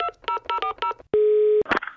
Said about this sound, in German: Wir rufen sie einfach mal an.